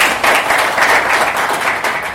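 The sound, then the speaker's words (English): An audience claps loudly for a guest, a former governor, in dense, continuous applause with slight swells in volume and no voices over it. “And having you here, let's clap for him once again.”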